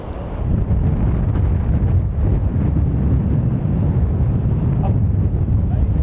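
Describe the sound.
Wind buffeting a microphone produces a loud, steady low rumble that holds almost unbroken for the whole stretch, with brief swells and dips in its gusting texture.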